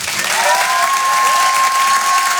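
An audience claps and cheers a comedian at a live comedy show: steady, loud applause with a sustained whistle riding on top.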